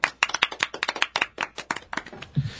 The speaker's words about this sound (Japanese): 拍手